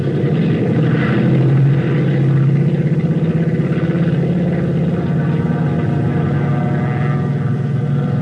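Engines of a multi-engine propeller airplane during takeoff, a loud, steady drone with a heavy low rumble that holds even throughout, no voices.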